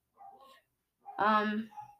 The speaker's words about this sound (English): Sorry about the dog barking in the background.